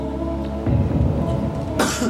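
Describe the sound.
A cough given as a signal during a quiz, short, rough and harsh, sounding alone over a low steady hum.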